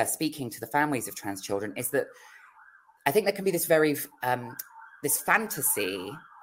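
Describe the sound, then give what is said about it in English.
Emergency vehicle sirens outside a flat wail with a wavering, undulating tone, audible mainly in the pauses and partly under continuous talk. “sorry, I can hear like sirens going off outside my flat. Whoop, whoop, it's the sound of the police. Yeah. I don't know the difference between the different emergency sirens.”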